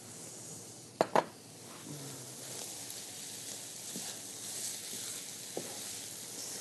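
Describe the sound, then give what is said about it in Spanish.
Onion and vegetarian meat sizzling in a pan, a faint, steady frying hiss broken by a couple of sharp clinks early on and a few softer taps later. “Aquí lo que estamos queriendo es que se cocine la cebolla, voy a subirle un poquito más, y la carne vegetariana, cocine un poquito.”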